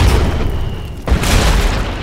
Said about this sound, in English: Helton had broken open his Gren launcher. It was really just a supersized break-action shotgun. He stuffed in a fat HE round and popped it into the vegetation.